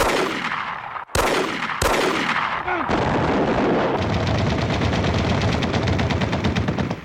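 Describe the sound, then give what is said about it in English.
Aggressive intro music for a radio talk show opens with loud, sharp gunfire-like bursts, then settles into a dense, driving wall of sound with a fast, steady pulsing beat. “So that's the slightly aggressive intro music for Shoot the Messenger”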